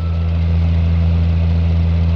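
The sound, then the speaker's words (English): A car engine runs on a lonely road in upstate New York, giving a steady, low, even drone with a deep hum that stays constant throughout. “Tonight, we find him in his car on a lonely road in upstate New York”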